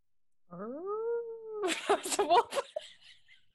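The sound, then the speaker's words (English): A person's voice imitates a werewolf howling at midnight: one drawn-out howl that rises and then holds steady, followed by a burst of laughter and other voices. “That was a werewolf.”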